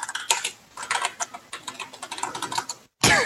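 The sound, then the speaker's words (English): Typing on a computer keyboard: rapid, irregular clicks and taps of keys in a steady stream, heard alone without talk. “Can you hear me type?”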